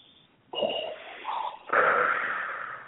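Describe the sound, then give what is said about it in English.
A voice imitates heavy, masked mechanical breathing, rasping from the back of the throat. A short faint breath is followed by two hoarse, hissing breaths, the last long and drawn out. “speaking of Star Wars, you kind of make that that sound like Darth Vader makes in his mask. You kind of make that in the back of your throat when you exhale”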